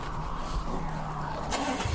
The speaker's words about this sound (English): Starting the car again.